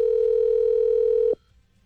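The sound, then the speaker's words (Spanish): A telephone ringing tone sounds as a call is placed: one steady, mid-pitched electronic tone holding for over a second, then cutting off abruptly into near silence. “No, porque la estoy llamando del de Tropicana.”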